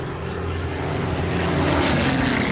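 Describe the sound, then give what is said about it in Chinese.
Propeller engine drone of a British Spitfire fighter plane flying over a bridge, a continuous loud, steady roar that swells slightly toward the end. “英国喷火式战斗机飞过桥梁查看他们的情况”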